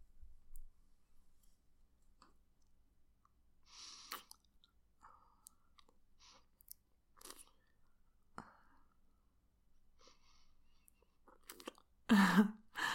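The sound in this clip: Faint, wet licking and mouth sounds come in sparse, irregular bursts over near-silence, with a louder, fuller burst close to the end.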